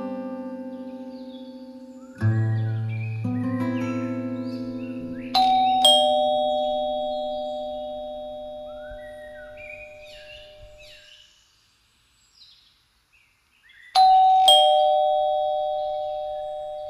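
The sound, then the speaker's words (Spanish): Doorbell of a house with a light oak front door at the top of a flight of steps: clear chime notes ring out and slowly fade, with faint chirping in the quiet stretch before a final two-note ding-dong. “Bajé del coche, subí rápidamente la escalinata y llamé al timbre.”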